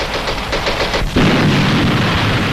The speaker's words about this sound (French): Vos grenades éclairantes, piégées, explosent.